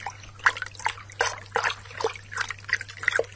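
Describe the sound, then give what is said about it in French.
Water lapping and trickling against a small rowing boat: soft, irregular drips and splashes that come and go in a loose rhythm, faint over a low, steady hum. “Et bientôt dans le clapotis de l'eau,”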